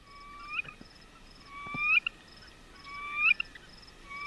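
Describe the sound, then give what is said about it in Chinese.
Male bird singing in breeding season: three rising, plaintive whistled phrases at regular intervals, each ending in bright, sharp trilling notes, faint and unaccompanied by talk. “这是雄鸟的歌声”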